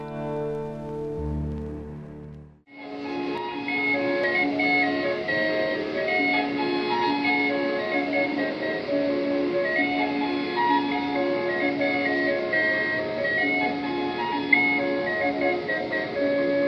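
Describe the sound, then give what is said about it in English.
Steam calliope music from atop a paddle wheel steamer on a river waterfront, heard through a hotel window. After a short, different opening sound, a bright, organ-like melody of repeating whistle notes plays steadily and continuously to the end. “The music you are hearing came from the Calliope atop the Belle of Louisville, a paddle wheel steamer which conducts evening cruises along Louisville's Ohio River waterfront.”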